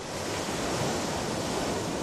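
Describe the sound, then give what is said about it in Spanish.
Ocean waves wash onto a beach in a steady, unbroken roar of surf that holds a constant level for about two seconds, with no distinct breaks and no voices. “Imagina que estás en la playa, nadando cerca de la orilla. Cierra los ojos y escucha.”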